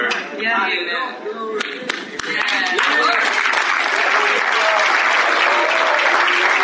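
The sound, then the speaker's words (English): Audience applause at a church service: dense, steady clapping that swells over the first two seconds and then holds at full strength, with voices heard faintly over the opening. “Don't you know when you clap, you're applauding?”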